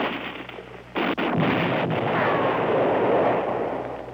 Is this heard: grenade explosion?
yes